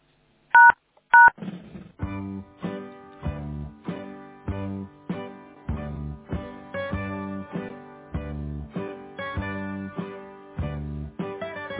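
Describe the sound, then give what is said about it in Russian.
Two short telephone keypad beeps sound while a call is being connected, then a long run of many evenly spaced tonal pulses repeats steadily and softly. “Давайте я попробую вас соединить с Татьяной Александровной.”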